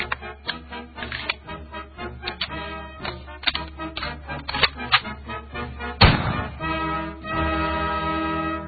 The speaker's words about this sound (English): Where's my gun sound effect?